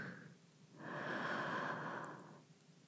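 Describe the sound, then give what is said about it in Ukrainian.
Faint, slow human breathing during a guided relaxation: one long, soft airy breath swells up, holds briefly and fades away, alone and very quiet. “Видих. вдих,”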